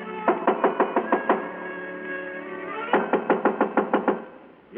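Knuckles rap on an apartment door in a radio drama: two loud rapid runs of knocks, each about seven to nine blows, separated by a short pause.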